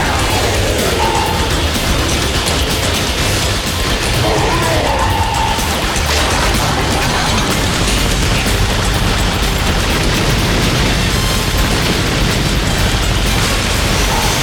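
Missiles explode during a video game battle against a giant mecha enemy and waves of small foes, a loud, continuous barrage of blasts and rumbling crashes with no quiet gaps.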